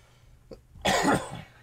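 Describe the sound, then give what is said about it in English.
A single harsh cough from one person, fairly faint, with a brief breathy sound just before it and nothing else heard. “Excuse me, guys. Still got that cough.”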